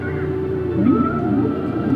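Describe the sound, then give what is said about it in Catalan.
Whale song: moaning tonal calls that sweep upward and glide over a steady low background, forming a few drawn-out, overlapping cries. “Això que estem escoltant és el cant de les balenes”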